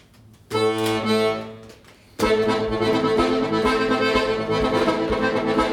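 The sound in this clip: A bellows instrument plays a tango, starting with a single sustained reedy line. A sudden, fuller texture follows as harmonies and a low bass enter, and the rhythmic, steadily loud chords carry on to the end.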